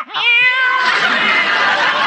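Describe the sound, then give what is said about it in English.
A human voice imitates a cat's meow: one loud, drawn-out, nasal meow lasting about two seconds, heard alone. “meow, meow.”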